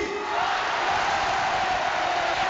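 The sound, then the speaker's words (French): A stadium crowd gives an ovation to a national team's legendary number 9 at his final home match, a dense, continuous roar of cheering that stays loud and even throughout. “Merci d'adresser une ovation au légendaire numéro 9 de l'équipe de France, Monsieur Tony”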